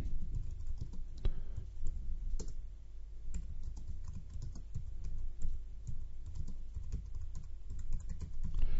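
Typing on a computer keyboard while writing a new post: many quick, irregular key clicks in a continuous stream, with slightly louder taps scattered throughout.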